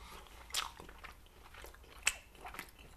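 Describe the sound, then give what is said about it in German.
Faint crunchy bites into sweet potato fries with barbecue dressing: a few crisp, separate crunches with soft chewing between them and no talking. “ich habe dazu noch Süßkartoffelpommes mit Barbecue-Soßen-Dressing gemacht. Die probieren wir als erstes.”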